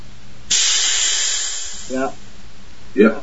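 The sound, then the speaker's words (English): Sharp hiss of gas escaping as the lid of a partly filled container of fermenting homemade drink is cracked open. The hiss starts abruptly, stays steady for over a second, then fades, and a few brief softer sounds follow. “Tell me if you hear what happens right here whenever I crack this lid open.”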